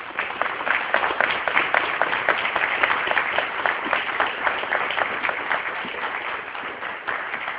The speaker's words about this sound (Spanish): Coronel Ariel Sánchez, háganos el favor con un fuerte aplauso,